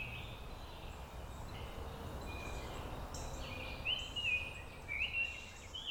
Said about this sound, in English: The singing is from atop Kessler Mountain in southeast Fayetteville. That's 30 seconds as a tanager flies from the university campus